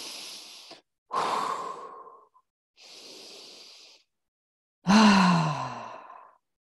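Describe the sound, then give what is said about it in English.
Deep breaths drawn in through the nose and let out through the mouth during a guided meditation: four long, airy breath sounds separated by short pauses, the last a louder exhale carrying a voiced sigh. “Couple of nice deep breaths in through the nose, out through the mouth.”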